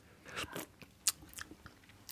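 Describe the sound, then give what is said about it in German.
Faint wet mouth sounds as someone tastes a warm green paste from a long spoon. A few soft smacks and chewing clicks, with one sharper tick in the middle. “So, jetzt wird auf jeden Fall probiert. Ich habe hier einen langen Löffel und jetzt die Pampe probieren.”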